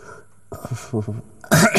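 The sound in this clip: Coughing and throat clearing from dust caught in the throat. A few rough, throaty vocal sounds are followed by a harsh, loud, breathy burst at the end.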